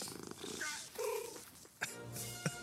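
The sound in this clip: A cat purs in a steady low rumble that runs through the whole stretch, with a couple of short sharp clicks near the end.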